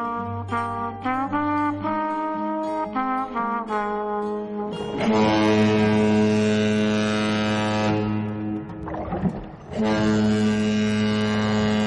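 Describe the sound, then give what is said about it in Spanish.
A loud, steady drone of low hums and sustained tones fills the interior of a cargo ship fitted to carry passengers, its layered pitches shifting now and then without any talk. “Estamos en el interior de un barco de carga que ha sido habilitado para que viajen pasajeros.”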